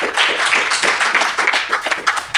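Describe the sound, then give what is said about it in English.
Audience applause for a guest, a dense run of brisk hand claps that patters unevenly at a fairly loud level before dropping away at the close. “All right, give a round of applause for Jonathan Sconza today.”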